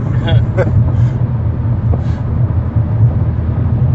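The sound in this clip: A car being driven, with steady low road rumble and engine drone running throughout beneath people talking.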